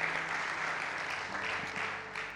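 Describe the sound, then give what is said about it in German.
Applause from a church audience during a service: dense, even clapping that runs without pause at a fairly faint, steady level. “können wir denjenigen mal einen großen Applaus geben, die sich gemeldet haben?”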